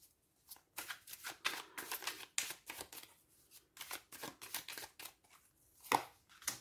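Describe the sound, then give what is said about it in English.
A crystal tarot card deck is shuffled and drawn from, giving quiet papery riffles and snaps in many short bursts with an uneven rhythm across several seconds, with no talk. “i'm going to take a card for your core energy and well i'm not going to use this deck i'm going to use this one the crystal deck”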